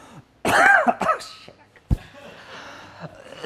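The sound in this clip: Coughing after getting coffee up the nose and into the throat: a few harsh, sputtering coughs and throat-clearing hacks, the first loudest and drawn out, followed by shorter choked bursts and a faint final rasp.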